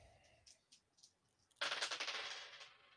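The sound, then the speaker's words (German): Dice rolled onto a table during a tabletop role-playing game: a few light clicks, then a sudden dense clattering rattle that stays loud for about a second before tapering off. “Wer würfelt? Captain, machst du das?”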